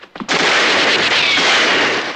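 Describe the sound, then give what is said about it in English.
Gunfire erupts in a dramatized shootout: after a couple of quick soft pops, a loud, dense, sustained burst of rapid shots rolls on for about two seconds before easing off. “Leroy returns fire and kills a shooter.”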